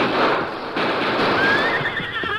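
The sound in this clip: A horse whinnies while pulling on a rope tied to a bar, a high, wavering neigh rising out of a steady, loud rushing noise in the second half.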